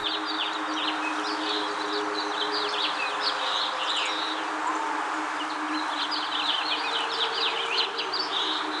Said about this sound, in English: That's the sound of birds having a party. They are loving it, sitting in their tree canopies.